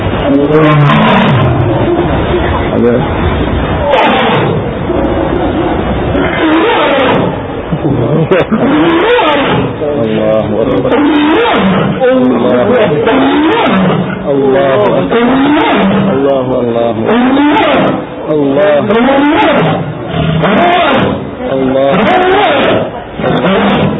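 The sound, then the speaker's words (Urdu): A lion roars, letting out deep, loud, rhythmic roaring calls in a long unbroken series that runs for over twenty seconds. “چند جانوروں کے اللہ تبارک و تعالی کے ذکر کرنے کے مناظر دکھاتے ہیں۔ دیکھیے یہ شیر اللہ اللہ کہہ رہا ہے”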